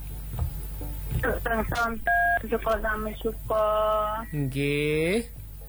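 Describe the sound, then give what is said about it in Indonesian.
Telephone keypad tones as a number is dialed, a few short steady beeps mixed in among voices talking. “Oh, telepon dulu kalau gitu nggih.”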